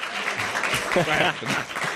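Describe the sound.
Audience applause during a live radio show: brisk, dense clapping that stays loud throughout, with a voice talking over it partway through.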